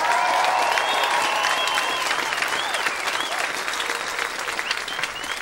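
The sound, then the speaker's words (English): Applause and cheering from a graduation crowd celebrating the class of 2018, a dense, loud, sustained roar of clapping mixed with shrill voices that eases slightly toward the end. “So everybody make some noise for the class of 2018.”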